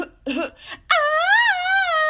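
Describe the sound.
A voice imitates a newborn baby's cry: a few short broken vocal sounds, then a long, loud, wavering wail.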